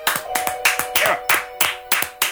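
Two people clap as a mock studio audience, giving sharp, distinct handclaps in a loose, uneven rhythm rather than full applause.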